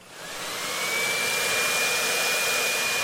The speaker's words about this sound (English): look at that, somebody left a leaf blower for me. Now, if we turn on this leaf blower,